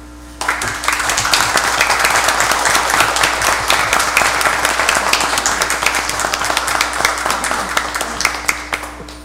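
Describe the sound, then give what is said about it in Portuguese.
Sustained applause from the audience at a city council session, dense hand clapping that starts abruptly and carries on at an even, loud level for about nine seconds over a faint steady hum. “nós vamos pedir a todos vocês que demos uma salva de palmas.”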